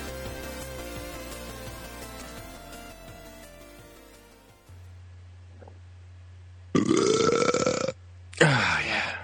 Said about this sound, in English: I was thinking, I'm going to edit this out, and then I burped.